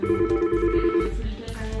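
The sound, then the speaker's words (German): Telephones ring steadily in the busy call centre of a Swiss federal gymnastics festival, a sustained ringing tone that carries on unbroken over dense background clatter. “Im Callcenter des Turnfests läuten die Telefone in diesen Tagen fast ununterbrochen.”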